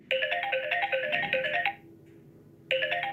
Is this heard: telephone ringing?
yes